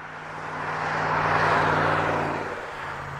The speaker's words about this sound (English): Semis roll down Highway 20 just outside of the small town of Atkinson in north-central Nebraska.